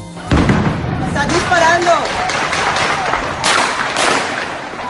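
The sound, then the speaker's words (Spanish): Gunfire from police shooting at protesters: many sharp, loud cracks and thuds in quick, irregular succession, mixed with shouting crowd voices throughout. “Están disparando a todos los manifestantes. Esto es bala.”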